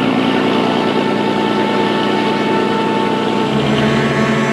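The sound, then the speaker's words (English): Loud, even engine drone of a boat motoring down a channel toward the open sea, a continuous rumble with no breaks or pauses. “The two men motor down the channel toward the open sea.”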